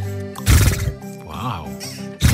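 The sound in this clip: A woman imitates a horse with her voice, giving a loud breathy snort, then a wavering neigh-like whinny, then another sharp snort.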